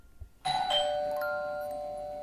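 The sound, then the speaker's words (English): A house doorbell rings late at night: a bright, clear electronic chime strikes after a moment of near silence and rings on, fading slowly. “all of a sudden, The doorbell rang.”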